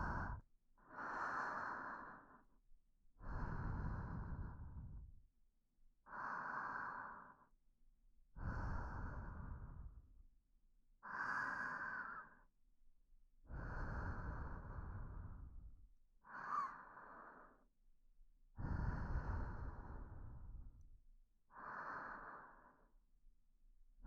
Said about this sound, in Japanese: お腹が動くのを感じてみてください。10回、一緒に深呼吸しますよ。